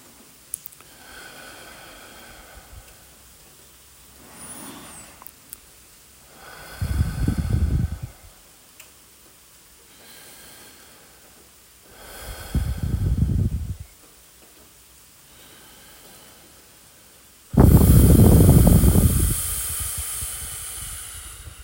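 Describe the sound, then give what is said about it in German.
Forceful breathing during a breathing exercise: three loud, hissing breath bursts separated by quiet pauses, the last one the longest and strongest, with a fainter breath before them. “Rot werden lassen, lange ausatmen. Und jetzt noch etwa 10 Atemzüge in dieser Dynamik.”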